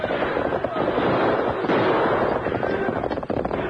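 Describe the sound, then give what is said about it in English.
Gunfire in a Western radio drama shootout with outlaws trying to hold up a stagecoach: dense, crackling shots over a busy, noisy background throughout. “Use your guns, Tonto. I see us. They're circling back.”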